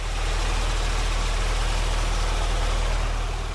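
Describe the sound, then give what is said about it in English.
Stone grinding machines run at a gold mining town in Ghana's Upper East region, producing a loud, steady mechanical drone with a deep low hum that holds unchanged throughout, with no voices. “On approaching Gani, which is about 45 minutes ride north of Bolgathanga, the capital of Upper East region, the sound of grinding machines is heard from every direction. The machines are used to grind stones collected for the mining”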